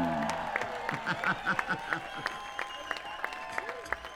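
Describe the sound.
Scattered audience applause at an island party concert welcoming a band, heard as irregular separate claps under sustained tones and voices.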